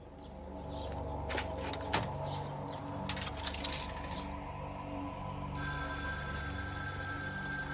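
Telephone ringing with an incoming call: a steady electronic ring starts past the midpoint, after a few sharp clicks over a low, constant background hum.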